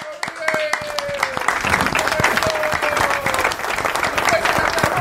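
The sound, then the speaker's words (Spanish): Audience applause at a live informal comedy-style show: steady, dense clapping from a crowd that holds loud and even for several seconds, with a voice faintly underneath. “Fuerte el aplauso.”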